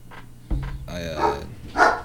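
A few short dog barks, moderately loud, rise over a low background hum.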